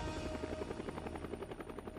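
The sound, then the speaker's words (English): A Huey helicopter's rotor blades chop in a fast, steady rhythm, a continuous pulsing thump with a high engine whine above it, moderately loud, with no voices. “I get excited today when I hear the wings of a helicopter flapping.”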